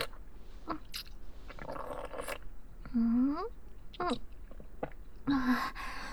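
A cat chews food in a rich sauce, making faint wet clicks and crunches in an irregular rhythm with short pauses between bites.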